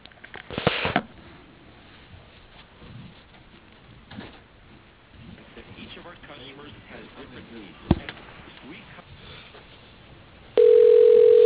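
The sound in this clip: A steady telephone tone cuts in near the end of a call being transferred to voicemail, after a stretch of muffled, narrow-band phone-line audio with faint voices and one sharp click.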